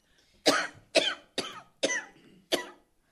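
A feverish woman coughs five times in a steady rhythm. Each cough is a sharp, harsh burst that decays quickly, with short gaps between them and no talk.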